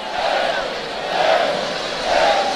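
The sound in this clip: Energetic shouts from a festival crowd wearing straw hats, a dense, continuous roar of many voices that swells in waves throughout.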